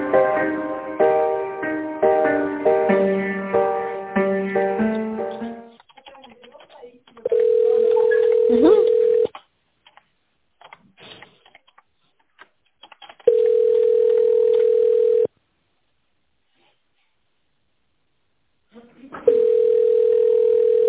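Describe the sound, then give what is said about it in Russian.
Telephone ringing tone while waiting for an answer: three steady, even two-second rings separated by silent gaps of about four seconds, preceded by several seconds of tonal, melodic sound. “Наберите добавочный номер или ждите ответа для автоматической переадресации.”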